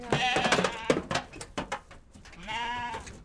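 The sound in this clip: Sheep bleat loudly during the shearing of a large flock with lambs. Several harmonic, wavering cries come at the start and again near the end, with thumps and shuffling noises between them.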